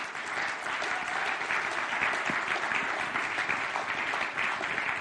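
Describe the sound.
Audience applause welcoming a speaker onto a stage: a dense, steady wash of clapping hands that holds at an even level throughout.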